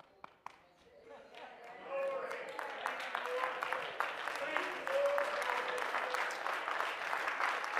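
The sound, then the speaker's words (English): Congregation clapping hands at a Sunday evening church service: a few isolated claps, then from about two seconds a dense, sustained clapping that builds and holds, with a voice over it. “while we're clapping our hands”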